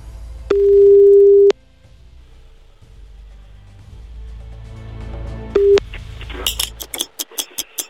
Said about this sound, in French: On appelle tout de suite le fameux sex shop Souvenir Sexy Shop à Paris.